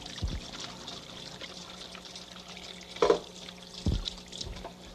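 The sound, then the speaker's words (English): Water runs faintly as someone washes their hands, a soft trickling with a few louder splashes spaced through the stretch. “Better wash my hands, because it's about time for me to go.”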